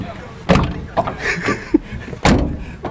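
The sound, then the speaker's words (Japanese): A car door on a left-hand-drive car, fitted with a newly replaced door catch that has made it stiff, shuts with two solid thuds a couple of seconds apart, while people talk around them. “左ハンドルドアキャッチをちょっとドアこの閉めてみてください”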